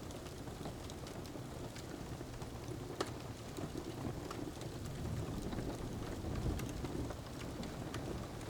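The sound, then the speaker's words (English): Steady rain falls outside, a soft, even hiss of drops with scattered light taps, quiet and continuous throughout with no other sounds. “Everything is peaceful as the rain outside tapers off.”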